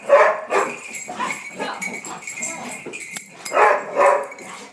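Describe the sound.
Several dogs, one of them an assistance dog, playing and barking together: many short barks and yips of varied pitch, some quite high, in irregular bursts at moderate loudness.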